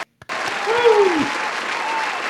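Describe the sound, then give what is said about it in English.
After a brief pause, an audience breaks into steady, even applause that holds at a strong level, with a voice briefly rising above the clapping. “So, congratulations, Les Deuce, for still having the best name. Everybody give him a hand.”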